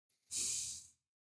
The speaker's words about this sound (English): Take a deep breath in.